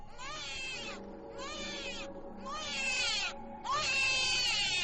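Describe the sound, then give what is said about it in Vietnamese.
A newborn baby's cry rises eerily, said to come from inside a coffin: four high, wavering wailing bursts, each a few seconds long and separated by short gaps, over a low, steady background hum. “quả thật là cất lên tiếng trẻ sơ sinh khóc, nghe rợn cả người.”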